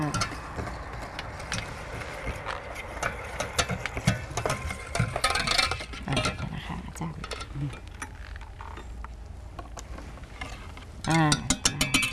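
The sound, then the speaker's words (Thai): An electric bakery mixer beats dough with a steady motor whir and rattling, clicking mechanical noise. A woman talks over it throughout. “แล้วก็จะใช้เครื่องตีนะคะเบเกอรี่นะคะช่วยในการตีนะคะ”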